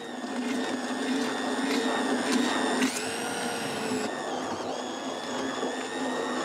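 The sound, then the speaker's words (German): A blender purées freshly caught fish for a fermented fertilizer. Its motor gives a loud, steady whine with strong tonal harmonics, and the pitch shifts partway through. “Der Fisch lagert mehrere Wochen in der Tonne und fermentiert. Doch vorher wird er püriert.”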